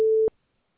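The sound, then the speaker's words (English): A single voicemail beep marks the start of recording: a steady, mid-pitched pure tone lasting about a quarter second, then an abrupt cutoff into silence. “Please leave your message after the tone.”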